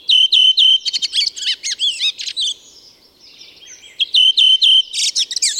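Redwing song, a thrush singing clear, high, repeated notes that run into quick chattering twitters. Two loud phrases are split by a softer, trailing stretch, and no voices are heard.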